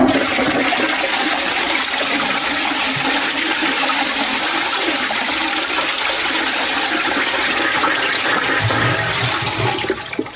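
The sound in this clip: A toilet flushes with a loud, steady rush of water that runs almost unbroken for about ten seconds before tailing off at the very end.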